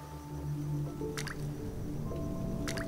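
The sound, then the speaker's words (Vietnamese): Water drips from a bathroom ceiling onto the floor: two distinct, crisp drops land a second and a half apart over a steady droning tonal background. “Nước từ đâu nhỏ từng giọt xuống nền rồi trên vai, làm cho ông Bằng”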